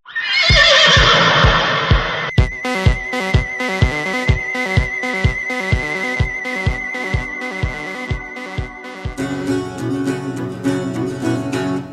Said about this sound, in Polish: Zaśpiewały janczary, dźwięk uleciał przez mrok. Trojka cwałem ruszyła jak wiatr.